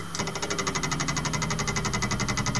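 An external hard drive tries to spin up a second time after failing to mount, giving off a steady, rapid rhythmic whirring buzz with regular mechanical pulses that continues unbroken, with nothing else heard.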